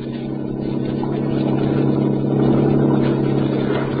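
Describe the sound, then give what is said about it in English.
Yacht engine sound effect played from a record, with little high-end: a steady, mid-pitched motor drone with a faint throb that swells slightly and holds throughout. “I got a record for the yacht that doesn't have so many highs. Good. Let's hear it.”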